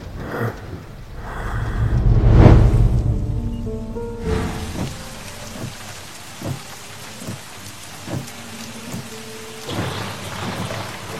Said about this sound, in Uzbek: yomg'ir zo'r yog'yapti-ya